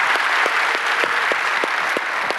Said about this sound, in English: So by applause, would you help me welcome each other to all the different campuses?